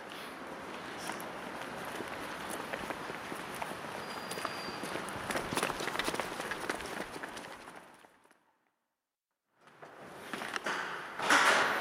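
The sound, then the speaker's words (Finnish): Footsteps pass through a gate and climb stairs on the way to open a parliamentary session, forming a dense, steady patter that drops out briefly near the end before resuming. “No niin, tästä portista mennään sisään ja portaat ylös. Joo, mennään tästä rappuja ylös.”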